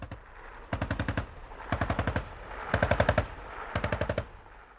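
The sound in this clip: Machine-gun fire during a firing drill at a target in front: four loud bursts of rapid, sharp shots, each separated by a short pause. No voices are heard.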